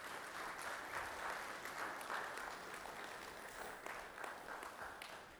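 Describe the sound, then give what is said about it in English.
Steady applause from a live audience in a room at a faith gathering, following shared personal stories. It is dense and even from start to finish, with no single voice standing out. “Can we give them a hand?”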